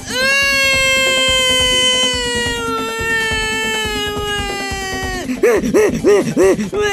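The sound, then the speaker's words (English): A person wails in a loud, high, sustained tone that drifts slowly downward for about five seconds, then breaks into a few short, wavering, sobbing cries. “I will now wail for the trees that can't.”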